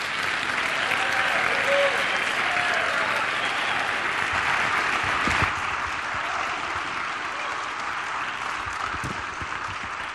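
A church audience applauds as a visiting guest pastor is welcomed during a Sunday morning service at Garden City Church. Loud, dense clapping holds steady for several seconds and then tapers off gradually toward the end.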